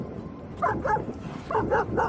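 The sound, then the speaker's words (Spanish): Dogs barking at San Lorenzo beach in Gijón on the day dogs return after the bathing season: a few sharp, yappy barks in two short bursts, with a quiet gap between them. “Estos ladridos vuelven a sonar desde hoy en la playa de San Lorenzo.”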